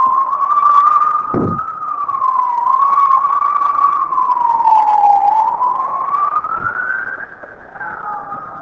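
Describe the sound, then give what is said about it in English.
An emergency vehicle siren passes, its loud wail slowly rising and dipping in pitch throughout, then dropping and fading slightly at the end. “That's an emergency vehicle. If you don't have an emergency, always respect those vehicles.”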